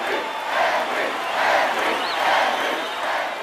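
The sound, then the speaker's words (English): Stadium crowd roar at a baseball game as everyone stands: a continuous, loud mass of voices swelling and easing in gentle waves, with no single voice standing out. “The entire crowd is on its feet.”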